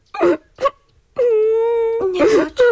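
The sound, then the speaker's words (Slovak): Someone cries: two short whimpering sobs, then one long, steady, high wail, then a few more sobbing bursts, loud and uneven. “Neplač, prosím ťa.”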